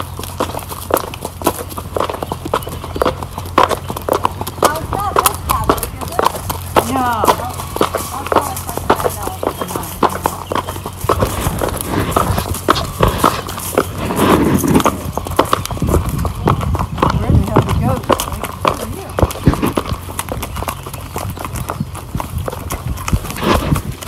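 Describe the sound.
Hooves clip-clop steadily as horses trot along a trail ride, with many quick, uneven hoofbeats running throughout at a fairly loud, constant level.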